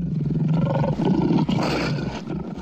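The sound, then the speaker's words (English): A lion roars on the South African savannah, a loud deep rumbling roar with pulsing low grunts that swell and then taper off over a few seconds, with no voices. “why a lion's roar isn't the most feared sound on the South African savannah.”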